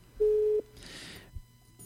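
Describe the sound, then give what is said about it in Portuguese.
A telephone busy tone after a dropped call: one steady mid-pitched beep, followed by a short burst of hiss and faint line noise. “Perdemos a ligação, Rivaldo?”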